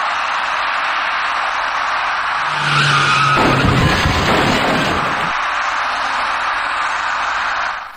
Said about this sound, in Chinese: 后面那位骑车人却被一辆由西向东而来的白色小客撞翻在路面上，骑车人和他所骑的电动自行车重重地摔倒在地。